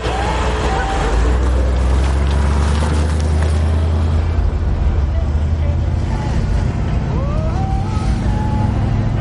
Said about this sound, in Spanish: El vehículo continúa su camino